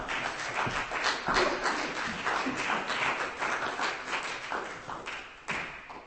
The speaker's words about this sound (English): Keith, ladies and gentlemen, give him a hand. Ladies and gentlemen, would you please welcome Tom to the stage?